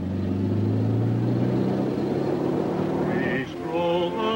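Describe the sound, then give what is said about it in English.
A car driving off, a steady low engine hum running for a few seconds before it drops away and other tonal sounds take over near the end. “She drives off as Roger watches.”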